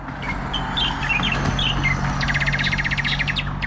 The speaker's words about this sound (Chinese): 清晨，小鸟在树上欢脱地练着嗓，小岗村迎来了新的一天。